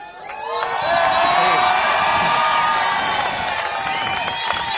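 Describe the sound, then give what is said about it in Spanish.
A large crowd shouts and cheers together, building quickly into a loud, sustained roar with whoops and high yells scattered through it. “Entonces, primero, grito de los legales, los que están aquí adelante.”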